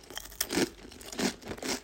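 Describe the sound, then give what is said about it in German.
Crunching of sea salt hummus chips being eaten, heard as a few short, crisp, crackly bursts with faint crinkling between them, soft and without talk. “Okay, also ich habe jetzt die Hummus Chips Sea Salt.”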